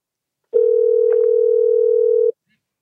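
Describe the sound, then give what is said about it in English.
A telephone dial tone heard while calling someone: one steady, unbroken hum that starts abruptly, holds for just under two seconds at even loudness, then cuts off, with nothing else around it. “let's dial her up here and see what kind of wisdom we can get out of her today”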